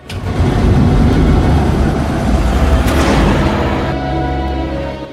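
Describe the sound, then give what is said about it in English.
A saloon car's engine as it speeds along a wet, deserted road at night and pulls up: a loud, steady drone that eases slightly toward the end. “A saloon car speeds along a wet, deserted road and pulls up at a brightly lit checkpoint.”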